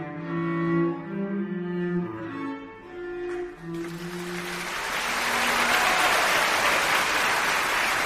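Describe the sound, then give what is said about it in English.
Concert hall audience on its feet applauding after the closing flourish of Brahms' Hungarian Dance in B minor; the final tonal notes fade and exuberant clapping swells into a loud, sustained roar. “As the final flourish of Brahms' Hungarian dance in B minor died away, the audience rose to its feet and the hall filled with exuberant applause.”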